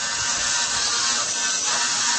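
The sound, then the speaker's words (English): A steady grinding whir from a computer-controlled drill chiselling a block of marble to carve a replica of Palmyra's 2,000-year-old triumphal arch. The sound holds an even, unbroken texture throughout, with no distinct strikes. “This is the sound of a computer-controlled drill chiselling away at a block of marble.”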